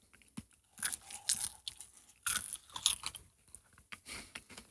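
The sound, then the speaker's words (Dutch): Someone crunches and chews an edible mealworm, producing many faint, irregular crisp crackling bursts separated by short quiet gaps. “Ja, ik eet ook lekker met je mee, hoor. Het eerste hap. Ja. De meelworm.”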